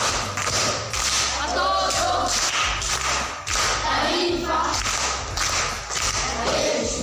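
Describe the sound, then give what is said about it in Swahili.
A group claps for a female guest during a children's quiz program. The claps fall in a steady, regular beat, loud and continuous. “Makofi kwa shangazi.”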